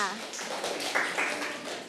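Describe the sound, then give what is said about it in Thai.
Children clap for a classmate in a classroom, a quick, dense patter of small-handed claps at moderate loudness that ends on one sharp, louder clap. “เด็กๆปรบมือให้เพื่อนค่ะ”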